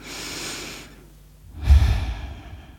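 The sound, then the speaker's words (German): A deep breath in and out: a soft, airy inhale, a short pause, then a louder, lower exhale with no talking. “atme einmal ganz tief durch”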